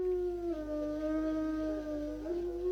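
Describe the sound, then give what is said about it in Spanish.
A wolf howls in one long, sustained, mid-pitched tone with slight wavering dips and rises, heard alone over a steady low background hum. “escucharse los hermosos aullidos del lobo.”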